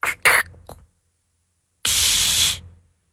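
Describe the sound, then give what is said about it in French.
A voice imitates a soda bottle being opened: a few short breathy bursts, a pause, then a long, steady hiss that fades out. “Une bouteille de soda qu'on ouvre.”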